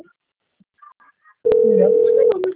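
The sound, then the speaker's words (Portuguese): Telephone tones as a call is placed: a steady low electronic tone holds for nearly a second, then a couple of clicks and a shorter second tone follow, with no one talking. “Vamos ligar aqui.”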